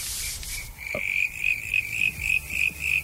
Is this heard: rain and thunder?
no